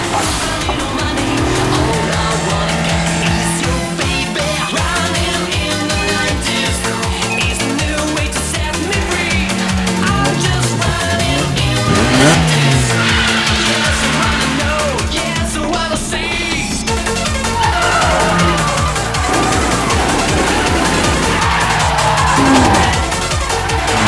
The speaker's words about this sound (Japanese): こうして近くで見ているとまるで芸術だな。あのドリフトは